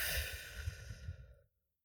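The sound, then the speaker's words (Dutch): A calm breath is released as a soft, breathy sigh during a guided relaxation exercise. The single slow exhale lasts about one and a half seconds and is followed by silence. “En adem eerst maar eens rustig in door je neus. En uit door je mond.”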